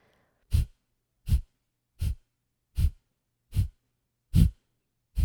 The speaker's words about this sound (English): So the first breathwork pattern is going to be the bliss breath. This is all exhales through your nose. And it's going to sound like this.